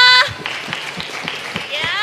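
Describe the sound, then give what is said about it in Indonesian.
Audience applause at an English competition event, heard as regular, evenly spaced claps at a moderate level. Voices talk briefly at the start and again at the end. “Okay, give applause for Dava.”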